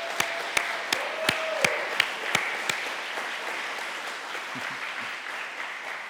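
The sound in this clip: Audience applause welcoming a woman to the stage at a church talk. A few sharp, distinct claps stand out early, then dense steady clapping holds at an even level.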